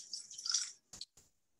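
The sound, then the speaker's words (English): 2015 wine is re-poured into a tasting glass. A faint, hissing trickle of liquid runs for under a second, followed by two short, separate drips in near silence. “Actually, I need to re-pour because I've moved something else into that glass.”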